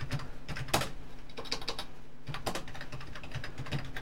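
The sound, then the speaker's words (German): Rapid typing on a computer keyboard while account details such as a name, email address and password are entered on Ubuntu. Many irregular clicks run throughout, with a few sharper, louder keystrokes standing out and no voices. “Wenn ich noch schneller tippe, habe ich noch mehr Fehler drin und brauche noch länger.”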